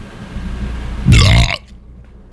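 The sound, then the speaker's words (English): A single loud, low burp lasting about half a second, rough and voiced, over quiet background noise. “You got the burp of approval?”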